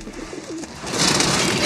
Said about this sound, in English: A technician carries a cage full of pigeons and inserts it into a hatch on the side of a large glass chamber.